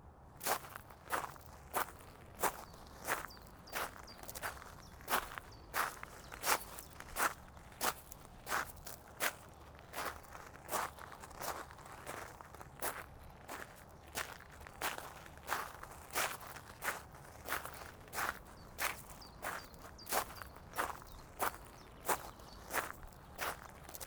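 Footsteps walking back through a garden to its gate, many steady, evenly spaced steps at a relaxed pace, each a crisp crunch, with no talk.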